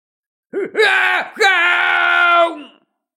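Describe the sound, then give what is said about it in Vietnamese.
A powerful warrior gives an enraged, roaring scream: a few short, strained cries, then one long, sustained high howl that trails off. “Đây là âm thanh rống giận của một cường giả. Hắn mang theo sự không cam lòng, thế nhưng cũng chỉ có thể la hét như vậy, tiếp đó là nổ tung.”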